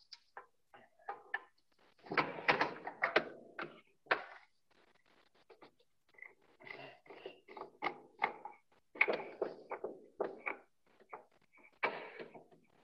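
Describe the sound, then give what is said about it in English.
Faint clicks, clanks and rattling as the cover of a fertiliser spreader is opened to remove the vane, coming in several short bursts of clatter separated by quiet pauses and scattered single ticks. “we'll actually remove the vane. Okay, so there's a little tool here on the side of the machine here. We'll come in here, we'll actually open up.”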